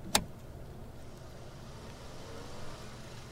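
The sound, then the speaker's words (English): A car rolling around to the second window of a drive-through, a steady low engine and road rumble following a single sharp click at the start. “Yeah, please drive around to the second window.”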